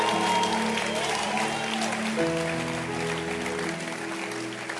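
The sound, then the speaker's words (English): A church audience claps their hands in celebration, a continuous dense patter of clapping that carries on steadily alongside sustained, keyboard-like music. “And let's also continue clapping our hands to celebrate Bishop Kobe.”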